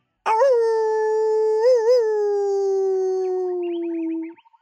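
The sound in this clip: A wolf howls once, a loud, long, smooth tone that wavers briefly midway and then slowly sinks in pitch before trailing off, with nothing else around it.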